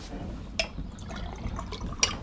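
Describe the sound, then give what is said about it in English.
Water is poured into a glass, a faint short trickle with a couple of light glassy clinks. “Could you get me some more water, darling? Of course, right away.”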